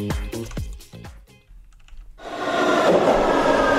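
An arriving metro train is played as a sound effect. A run of sharp, dry clicks comes first, then a broad rushing rumble swells up and holds steady and loud until the end.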